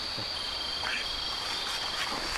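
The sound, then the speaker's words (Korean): Insects chirp at night outside a tent with a faint, continuous high trill that stays steady from start to finish, with no voices. “이게 벌레 소리도 들리고”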